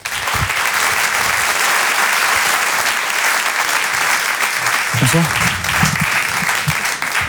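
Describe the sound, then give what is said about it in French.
Audience applause at a stand-up comedy show: a dense, steady wash of clapping that runs the whole time, with some faint voices mixed in. “Je vous demande un tonnerre d'applaudissements également, s'il vous plaît, pour Haroun.”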